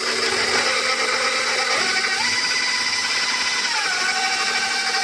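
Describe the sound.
An electric mixer whirs as it combines dry ingredients, including flour, for a gluten-free bake. The motor gives a steady, loud whine with no talk, and its pitch shifts slightly partway through as the speed changes.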